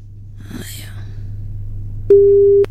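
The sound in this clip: A telephone line tone sounds during a live phone call from a radio studio: one flat, steady beep lasting about half a second, preceded by faint low murmuring.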